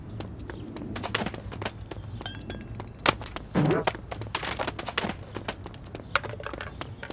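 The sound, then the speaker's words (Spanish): Quick, light footsteps of a girl running home, a fast stream of many soft taps with a couple of louder scuffs partway through. “Ana corre hacia su casa.”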